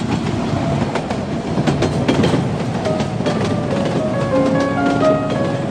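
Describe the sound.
A subway train running, with a steady, loud rumble of wheels on track, a rhythmic clickety-clack and thin high whining tones that hold throughout.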